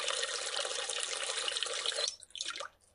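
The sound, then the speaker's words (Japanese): Hot water pouring into a washbasin with lotion, a steady splashing hiss for about two seconds that then cuts off, followed by a few faint drips and trickles. “ローションとお湯を洗面器にたっぷり入れて、”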